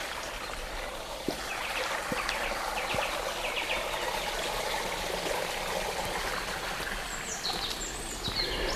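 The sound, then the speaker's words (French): A small stream trickles through a secluded valley as a steady, even babble of water. Faint bird chirps come through near the end. “dans ces petits vallons secrets, il y a toujours la présence d'un petit cours d'eau.”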